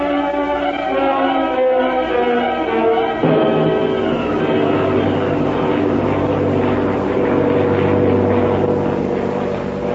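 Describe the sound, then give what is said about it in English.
A giant airliner flies high, its loud, steady propeller-engine drone layered with stacked humming tones. The drone shifts slightly partway through and continues unbroken. “Racing high above the earth, comfortably seated in a giant airliner, Flash Gordon”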